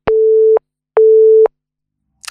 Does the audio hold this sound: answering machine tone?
yes